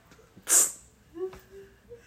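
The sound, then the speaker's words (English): A single quick spritz of mint breath spray, a short bright hiss standing out clearly, followed by brief faint vocal sounds. “What is that? Some breath spray. Some throat spray. Let's go. Breath spray. What is it? Breath spray. Yeah. Let's go mint spray.”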